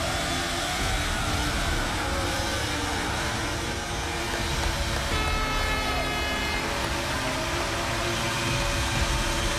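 A vehicle launching hard against Volkan's effort, its front wheels lifting into a wheelie: a loud, sustained engine roar with broad noise holds steady for nearly ten seconds.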